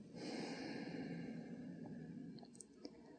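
One slow, soft inhale, an airy breath lasting about two seconds, followed by a few faint small clicks, quiet and alone.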